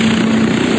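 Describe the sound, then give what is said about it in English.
An experimental stealth helicopter in flight gives a brief, steady, fairly loud droning rumble with a low hum running through it. No voices are heard. “This is the sound of an earlier experimental version of a stealth helicopter.”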